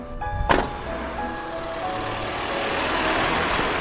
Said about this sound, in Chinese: 这条来回开行的五号专线垃圾收运车，每天定时出现在定点医院、社区和集中隔离的酒店，专人收运五号垃圾。